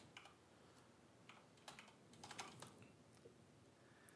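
Typing on a computer keyboard, heard as faint, quick clicks that come in irregular clusters, busiest in the middle, with short pauses between bursts.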